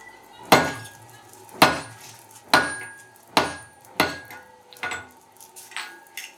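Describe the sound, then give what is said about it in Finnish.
Hammer blows ring sharply on a stamp punch marking hot metal that rests on a chisel. About five strong, evenly spaced metallic strikes come first, followed by several softer, quicker taps, with no voices. “Lyödään tämä leiman nyt tänne näin. Se on tuosta kohtaan kuuma. Tollain. Ratkaistaan tässä meisselin päällä.”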